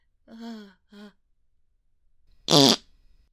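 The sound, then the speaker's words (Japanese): A smelly fart in a closed room: one short, loud, buzzy burst lasting about a quarter second, preceded by two brief voiced vocal sounds and a pause of near silence. “密室なのにこんなくっさいおならしたのをジロジロ見られて。”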